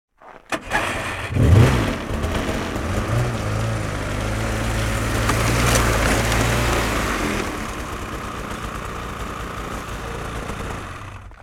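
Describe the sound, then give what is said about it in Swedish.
A snowmobile engine runs as the machine is driven up onto a car trailer. It starts abruptly, then holds a steady droning rumble that swells midway and eases off toward the end. “Så nu har du kört upp skoten här på kärran.”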